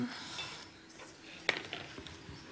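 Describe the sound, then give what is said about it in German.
A cutting board set down under a pot in a home kitchen while maki rolls are prepared: one sharp knock near the middle, then a few lighter clinks and taps over a quiet background. “Warte, das Brett habe ich da jetzt unter den Topf gestellt.”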